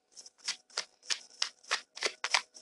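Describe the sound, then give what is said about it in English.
Shuffling of a Mucha tarot card deck: a steady run of quick, crisp riffling bursts, each a short papery flutter, repeating in an even rhythm with brief gaps between. “Shuffling the Tarot Mucha deck”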